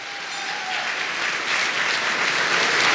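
Dense, steady applause from an audience welcoming a 1998 Radio Hall of Fame inductee, a full wash of many hands clapping that swells slightly and holds loud for the whole stretch, with no voices.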